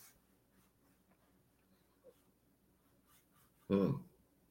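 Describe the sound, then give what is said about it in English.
Someone blows their nose once, a short, forceful, honking burst that comes near the end after a stretch of near-silence. “excuse me as I blow my nose.”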